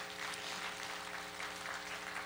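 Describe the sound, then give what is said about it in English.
Church audience clapping in thanks after a performance, a steady wash of hand claps over sustained musical tones. “Let's give Miss Sean a hand clap and everyone that was a part of it.”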